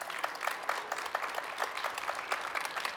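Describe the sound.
Faint applause from an audience, with one loud clapper standing out through a run of quick, evenly spaced claps against softer scattered clapping.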